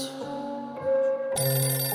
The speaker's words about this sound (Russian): Кто-то звонит телефон, но не понимает зачем.